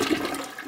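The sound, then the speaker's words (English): A toilet flush: a brief burst of loud rushing, gurgling water that fades slightly toward the end, with no talking. “Let me just flush that real quick.”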